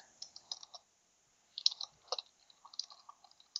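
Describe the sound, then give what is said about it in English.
Faint, light clicks of typing on a computer keyboard come in short, irregular bursts with small pauses between them, at the table during a tabletop game session. “Who's tippy typing?”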